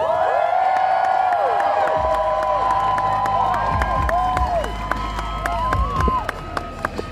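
Applause and cheering from an audience welcoming climate scientist Professor Michael Mann, with whoops and shouts over dense, steady clapping that runs through the whole stretch and is joined by a low rumble partway in.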